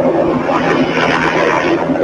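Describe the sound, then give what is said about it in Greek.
A private Bell helicopter spinning in the air seconds before crashing gives a loud, steady, dense roar with a constant low hum beneath it, unbroken for the whole two seconds. “Το μοιραίο ιδιωτικό ελικόπτερο τύπου Bell αρχίζει να περιστρέφεται στον αέρα δευτερόλεπτα πριν συντριβεί”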